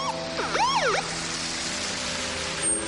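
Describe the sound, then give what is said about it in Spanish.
A police car siren as the car pulls up beside two men scuffling, a few quick rising and falling wails in the first second, then cutting off into steady street noise. “Los dos hombres se agarran por las solapas pero se sueltan cuando un coche de policía para a su lado.”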